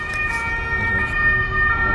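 A fire engine siren wails in steady, sustained high tones over a low rumble of road noise, holding fairly constant loudness throughout.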